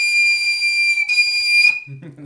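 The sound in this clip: Shrill, piercing tone blown on a wind instrument's head joint on its own, held steady with one brief break, then cut off before a voice speaks briefly.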